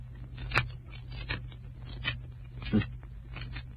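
Scissors cut open a queer-looking black hand filled with bone and dust, giving a rustling run of snips with a few sharper, louder cuts standing out at irregular intervals.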